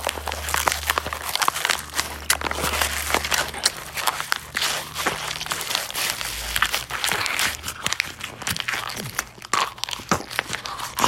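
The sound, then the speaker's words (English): Chewing on a paper origami swan: a continuous stream of crinkling, crunching paper bites and rustles that keeps up at a steady, busy pace throughout, with no talk. “chewing on an origami swan, you nailed it.”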